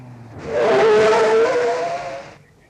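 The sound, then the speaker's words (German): A car engine swells loudly as the car pulls up and stops at a quiet spot on the shore of Lake Michigan. The engine holds a steady, tonal hum for about two seconds, then fades away. “Zur gleichen Zeit stoppte Dicky Dick Dickens an einem idyllischen Fleckchen beim Ufer des Michigansees das Auto der Mrs. Edwina Schooshobber.”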